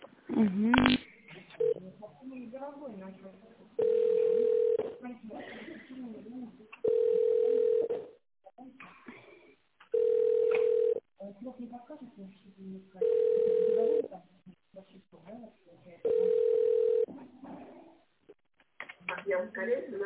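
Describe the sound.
Telephone tones play on a phone line while a call is transferred: five steady, mid-pitched tones, each about a second long, repeat at regular intervals. Between them are stretches of faint, muffled voices and line noise.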